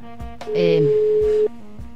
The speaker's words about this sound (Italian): Proviamo a chiamare il Ruvido anche stavolta. Sì, proviamo a farcela raccontare direttamente. Vediamo se funzionerà questo collegamento, che non è detto.